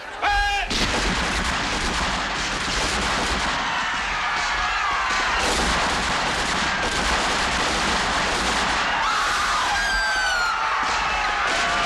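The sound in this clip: Rifles fire on a crowd at a forbidden gathering in a relentless, loud fusillade of overlapping shots that fills the whole stretch without a break.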